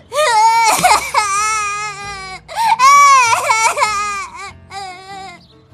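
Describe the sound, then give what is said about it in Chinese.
A small boy cries and sobs bitterly on his way to school. Loud, high, wavering wails break off into gasping pauses and then start again. “一个小男孩也是被他爸强行拎到了学校，一路哭得肝肠寸断”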